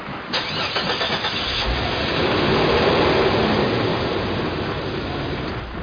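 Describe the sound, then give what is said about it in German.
A Jeep engine cranks and starts, then revs into a steady, loud, rising drone as the furious club president drives it onto a football pitch during a match. “Das war der Clubpräsident von Roso, der sofort wutentbrannt in seinen Jeep steigt.”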